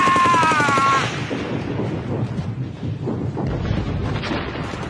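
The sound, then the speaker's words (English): German gunfire in wartime fighting: a dense, loud, continuous roar of shots and blasts lasting about five seconds, with a high whistling tone in the first second. “It was the German guns that got him.”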